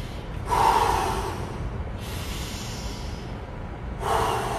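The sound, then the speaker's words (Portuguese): A deep breath: a long, loud inhale through the nose, then a slow, quieter exhale, with another deep inhale starting at the end. “Fecha os olhos, fecha os olhos. Respira fundo, ó.”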